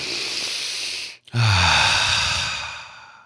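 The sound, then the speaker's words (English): A deep breath drawn in and let out: a steady breathy inhale, a brief pause, then a long airy exhale that starts with a low voiced sigh and slowly fades, heard alone without talk. “Take a deep breath with me right now.”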